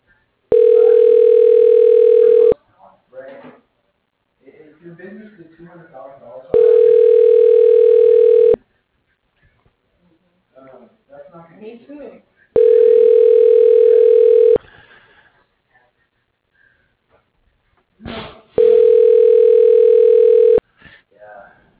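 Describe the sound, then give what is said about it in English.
Telephone tone heard while a call is dialed to an office extension: four steady, mid-pitched tones of about two seconds each, with softer, voice-like sounds in the gaps between them. “dialing”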